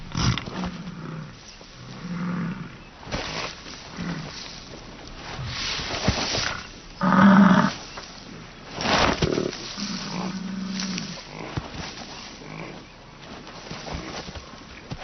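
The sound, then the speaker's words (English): Male bison bulls, each about a ton, bellow on summer grassland in the rutting season, giving several deep, rough, roaring calls that rise out of lower rumbling and background noise. “Male bison weigh in at 1 ton.”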